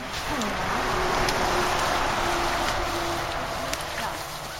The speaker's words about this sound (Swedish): Det här är ljudet från synen av brottsplatsen längs med E22.